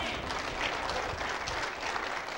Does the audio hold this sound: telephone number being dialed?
no